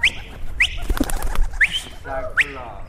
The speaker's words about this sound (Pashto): د نوموړي شاوخوا 60 ساتلې کوترې ډیرې سپینه او شنه رنګونه لري.